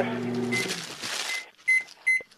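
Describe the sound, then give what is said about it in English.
Microwave oven keypad beeps: two short, bright electronic tones sound near the end, after a stretch of noise and a voice. “Hold on, I'm typing something into the microwave.”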